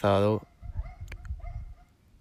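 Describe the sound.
A single loud, tonal dog bark opens the moment, short and sharp, followed by a person talking quietly with faint background noise.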